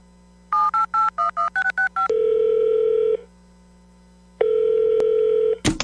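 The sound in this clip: Telephone keypad dialing tones for a phone call: a quick run of about eight short beeps, then two long steady ring tones separated by a pause, ending with a brief click.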